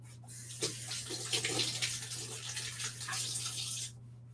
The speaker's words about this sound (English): let me wash my hands really quick.